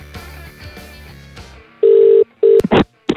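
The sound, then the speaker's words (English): A telephone number is dialed and the call rings out. Music plays first, then a steady low ring tone lasts about half a second, a shorter tone follows, and sharp clicks and a burst of line noise end it. “I'm actually got her number dialed in. Shall we have a chat to her? Yeah. All right, hang on. Here we go.”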